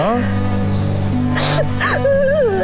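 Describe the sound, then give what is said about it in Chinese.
Someone sobs and cries harder and harder, with wavering, wailing cries broken by sharp gasping breaths, loud and close. “越哭越厉害。”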